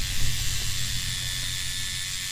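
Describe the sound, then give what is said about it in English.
A tattoo machine needle punctures skin with a steady, dense mechanical buzz that whirs continuously at an even loudness throughout. “To puncture the skin with a needle and insert indelible colors as to leave a permanent mark or design.”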